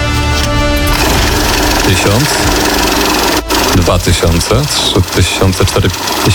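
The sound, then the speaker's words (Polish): A bank banknote counting machine runs with a loud, continuous mechanical whirr and rattle, while people talk over it throughout. “No, co to jest? Bankową liczarkę pieniędzy.”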